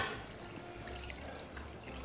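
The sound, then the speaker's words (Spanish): Water is poured into a pot of cooking chicken, a quiet, steady trickling pour that runs without a break and with no voices over it. “Le falta un poquito de agua. Ya le he echado un poquito antes, como voy a hacer ahora,”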